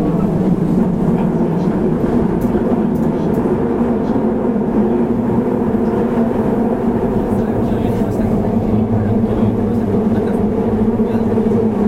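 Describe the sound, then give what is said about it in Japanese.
An Osaka Municipal Subway 30000 series train bound for Tennoji runs with a loud, continuous rumble and steady rolling wheel noise that hold at an even level throughout. “この電車は天王寺行きです”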